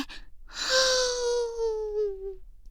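A long, loud, gasp-like voiced inhale taken during a guided breathing exercise, held for about two seconds with a slowly falling pitch, heard alone without talk.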